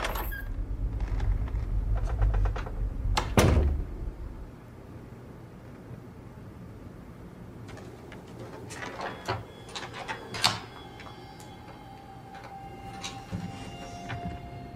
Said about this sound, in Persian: در رو پشت سرم قفل کن.